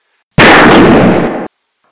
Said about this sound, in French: L'agent veut fuir. L'officier tire.